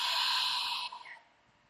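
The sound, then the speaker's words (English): A long, breathy exhalation through an open, unconstricted throat, a steady airy hiss that thins and fades out toward the end. “keep on breathing out while opening your throat.”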